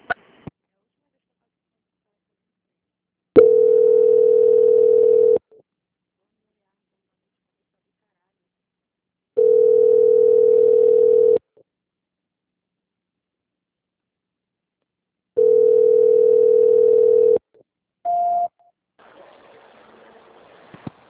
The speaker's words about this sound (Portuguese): Só aguardar em linha, tá? A ligação vai ficar muda, o senhor vai ser atendido por um outro setor. Boa tarde. Boa tarde. Transferência.